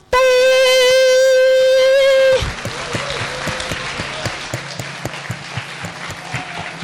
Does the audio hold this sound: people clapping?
yes